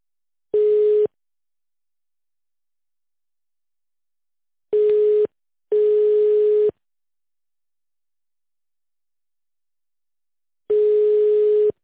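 Telephone line tones while a call is transferred to an accounting department: four steady, buzzy beeps of uneven length and spacing, separated by silence.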